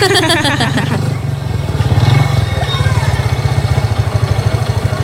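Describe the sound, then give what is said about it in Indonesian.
A motorcycle passing close by, its engine giving a low, pulsing rumble that stays loud and fairly steady throughout. “Hati-hati tuh, keserempet. Ada motor lewat.”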